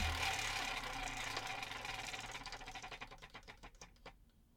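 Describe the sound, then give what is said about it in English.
A wheel being spun: rapid ratcheting clicks blur together at first, then slow into distinct, wider-spaced ticks as it winds down and fades. The sound is faint and there are no voices. “Yes, spin that wheel.”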